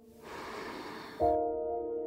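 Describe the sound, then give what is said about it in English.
One deep breath is drawn in slowly as a soft, airy rush lasting about a second, followed by a steady tonal sound that holds to the end. “Let's do it again. In with your breath, filling yourself up, and then letting it go.”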